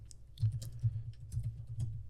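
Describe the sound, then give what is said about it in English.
Quiet keystrokes on a computer keyboard as someone types a search, a quick irregular run of soft clicks and taps. “Type in the Marvels and see if he's credited.”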